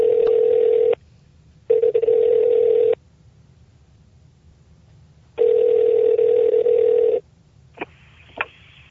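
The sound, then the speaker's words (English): A telephone being dialled rings out as a steady electronic tone in three long bursts separated by silent gaps, followed by two short clicks. “Let's dial him up.”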